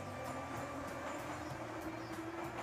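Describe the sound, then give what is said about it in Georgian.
An underground Boston subway train in America's oldest metro system gives a faint, continuous rumble with a few soft rattles and clatters running through it, and no voices. “ახლა კი მეტროში. მე უბრალოდ ფსკერზე ვარ, სულ უფრო ქვევით და ქვევით ჩავდივარ.”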